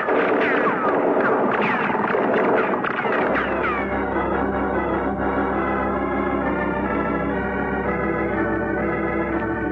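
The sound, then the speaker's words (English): Gunfire from the shore crackles in a rapid, dense burst of shots for about three seconds. Sustained music then swells and takes over. “The shooting, Effendi. It is coming from the shore.”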